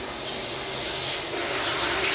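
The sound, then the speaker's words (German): Shower running while someone soaps up, a steady, even hiss of spraying water that lasts the whole two seconds with no break. “Ah, unter der Dusche. Wird sich noch ein bisschen eingeseift.”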